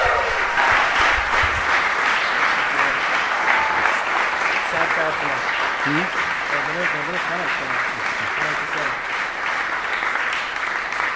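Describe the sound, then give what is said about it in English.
Standing ovation from a church audience: dense, sustained applause that holds at a steady loudness, with whoops and cheering voices rising through the middle. “Let's give him a standing O.”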